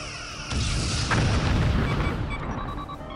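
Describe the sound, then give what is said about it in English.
Starship phaser fire in a space battle: a loud, sustained energy blast with a heavy booming low end and ringing tonal layers that swells sharply and then rumbles on for about three seconds. “Phaser arrays 1, 3, 5, lock in. Ensign, get to hangar deck and launch all fighters. Aye, sir. Targets acquired. Ready to fire. Fire!”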